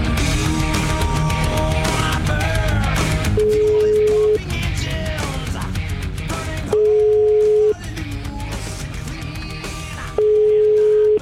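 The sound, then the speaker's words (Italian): Telephone ringback tone on the line while a call is placed: three steady one-second beeps separated by longer gaps, heard over ongoing background music. “Chiamiamo Berlato, dai.”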